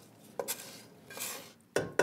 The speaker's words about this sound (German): Und den angebratenen Speck. Das kannst du jetzt reinlegen, gell? Geben wir das dazu.